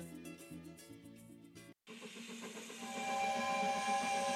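Steam train sound effect: after music cuts off with a brief gap, a broad hissing rush of steam swells and grows louder toward the end.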